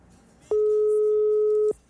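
A telephone busy tone from a call that failed to connect: one steady, loud electronic tone that holds about a second, then cuts off cleanly, with only faint background noise before and after.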